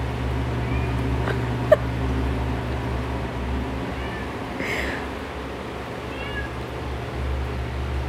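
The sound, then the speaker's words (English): A female cat meowing: a few faint, short meows and one louder, clearer meow midway, over a steady low hum. “I'm not sure what she's meowing about. That is my cat, Gabby.”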